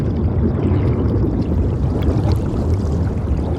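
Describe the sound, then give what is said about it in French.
Water rushes and gurgles as a body sewn into a sack is thrown into the sea and sinks quickly underwater, a dense, continuous churning rumble with faint bubbling on top. “Ils le jettent à la mer. Ils s'enfoncent rapidement vers le fond.”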